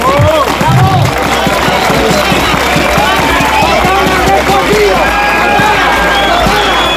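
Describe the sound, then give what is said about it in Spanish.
Festive, loud crowd at a pride march and street party in a town, with dense cheering, shouting and many mingled voices running continuously throughout. “Este es el sonido de un ambiente festivo y reivindicativo que, como decimos, se vive en este momento en las calles del municipio.”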